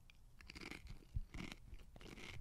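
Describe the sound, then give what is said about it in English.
Crunching of Doritos ketchup-flavoured chips being chewed during a taste test. The chews come as a few bursts of crisp, dry crackling, fairly faint, with no talking. “Okay, so we got the chips. Doritos ketchup chips. We got our extra sauce here. Taste test. Here we go.”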